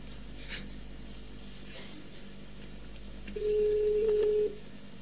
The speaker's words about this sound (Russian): Оставайтесь на линии, идет соединение.